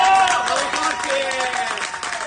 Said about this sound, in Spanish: el aplauso de todos los integrantes del equipo